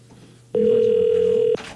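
Ringback tone on an outgoing landline call, one steady electronic tone lasting about a second, loud and even, with quiet background hum before and after.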